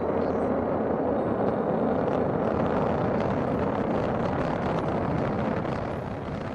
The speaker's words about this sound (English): And launch of the SpaceX Falcon 9 rocket as NASA turns to the private sector to resupply the International Space Station.